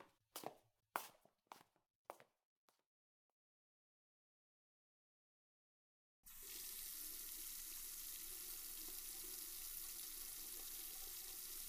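Tap water running as someone washes their face: a few soft footsteps, a silent pause, then a steady, loud hiss of flowing water that continues to the end.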